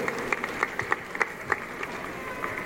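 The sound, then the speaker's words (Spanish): A crowd applauds at a gathering of community communicators in Caracas, Venezuela: dense, steady clapping forms a continuous patter with a few sharper claps standing out. “Fuerte el aplauso para nuestro camarada Carlos Sierra.”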